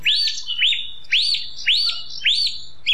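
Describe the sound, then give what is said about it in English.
A single bird repeats a bright chirping call at dawn in Killarney National Park, Ireland. About six evenly spaced notes rise then fall, loud and clear, with no other birds or voices. “Listening to the wonder of nature that is the Dawn Chorus in the Killarney National Park in Knockrea, the edge of Killarney Town”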